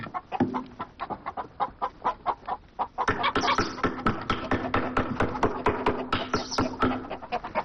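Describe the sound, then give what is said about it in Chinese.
Chickens cluck in a chicken coop built at home, with many rapid, rhythmic clucks and light taps that grow fuller and busier from about midway. “翠萍在家里真的垒起了鸡窝。”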